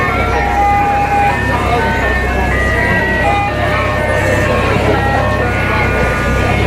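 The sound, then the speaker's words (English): Engine rumble from a 1958 red panel truck moving through town after a parade: a steady, loud low drone with a few thin tonal whines running above it throughout. “You know, Doc Bernstein's riding in his famous 1958 red panel truck. You see it all over town.”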